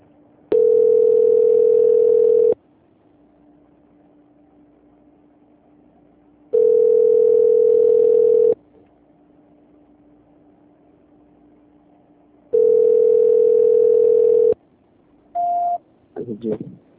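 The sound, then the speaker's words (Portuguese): A telephone line tone plays while a call is transferred: three long, steady tone bursts of about two seconds each, separated by quieter humming gaps, followed by a couple of short beeps at the end. “Vou transferir essa ligação agora para uma outra atendente. Aguarda na linha, não desliga”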